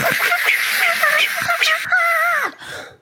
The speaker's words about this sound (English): that's literally the sound the Slua makes as she tries to scream and just sword slashes through the air.